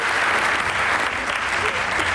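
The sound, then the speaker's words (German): An audience gives loud applause as a guest walks onto the stage, a full, steady clapping wash throughout, with a voice faintly over it. “Die morgt dat so, wenn ein auf de Böhn kommt, dann kriegt sie jümmers einen großen Applaus.”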